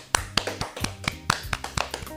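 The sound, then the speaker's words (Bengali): Scattered hand clapping from an audience for a young child performer: a run of sharp, separate claps at a moderate, slightly uneven pace. It is fairly faint, with no talking. “এবারে আমাদের ছোট্ট বন্ধু ইন্দ্রাক্ষীর জন্য একটা হাততালি হয়ে যাক।”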